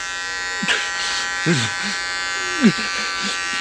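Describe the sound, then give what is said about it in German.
An electric razor buzzes steadily as a man shaves, a constant humming drone broken by a few brief vocal sounds rising over it. “zauberte aus einem Fach in der Vorderlehne neben dem Fernseher ein Rasierapparat. Er schnitt sämtliche Grimassen, die man gewöhnlich beim Rasieren macht”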